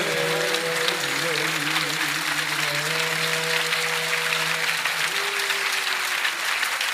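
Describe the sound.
Audience applause at a religious celebration marking the birth of Hazrat Ali Akbar: steady, dense clapping that carries on evenly through the whole stretch at a fairly constant loudness.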